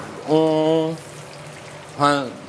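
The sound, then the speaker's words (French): Red mullet fillets sear skin-side down on a very hot plancha, giving a steady, even sizzle under people talking. “on va marquer notre poisson. Alors je vois que vous les mettez côté peau.”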